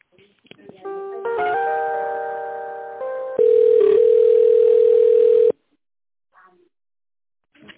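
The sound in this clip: A telephone line plays tones while a call is being transferred. A layered, chime-like chord shifts pitch partway, then gives way to a louder steady single tone that cuts off sharply. Near silence follows, broken by a few faint, brief sounds.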